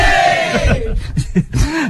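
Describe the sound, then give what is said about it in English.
A school audience cheers for Perrins School with loud bursts of shouting and whoops. Several voices rise and fall in pitch over a noisy crowd bed. “And every time we mention Perrins School, we are going to get a bit of a cheer.”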